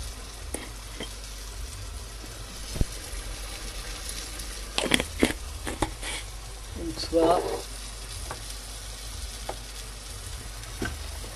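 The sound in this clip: Food simmering in a pot while cooking, a steady faint sizzling hiss with occasional soft clinks and scrapes of stirring.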